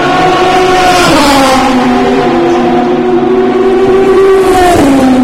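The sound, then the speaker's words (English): A Dome Judd race car roars past, its loud, continuous engine note rich in harmonics, holding a strong, steady tone throughout. “That was the Dome Judd, that last one going by.”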